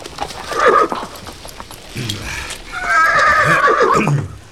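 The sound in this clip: Horse neighing from a mount being ridden, with a short whinny early on and a long, loud, strongly tonal neigh through the second half, rising then falling away.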